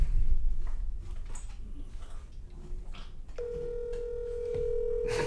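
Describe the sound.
A telephone call being placed: a steady, buzzy ringing tone begins partway through and holds to the end over a noisy background.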